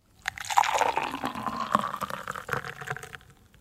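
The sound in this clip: Coffee being poured gives a soft, continuous splashing and trickling that swells and then fades over about three seconds.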